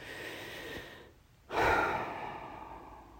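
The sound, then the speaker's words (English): A single deep breath drawn during a guided breathing exercise: soft, airy breathing gives way to a brief hush, then one full breath surges in abruptly and slowly trails off. It is quiet and heard alone. “So take one more deep breath with me”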